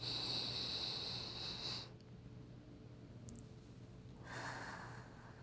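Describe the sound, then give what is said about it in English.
Deep breathing: one long, slow, airy breath is followed by a quiet pause and then a second, shorter breath. The breaths are soft and there is no speech. “Take some deep breaths, okay? All right. I'll do it with you, okay? All right. Deep breath.”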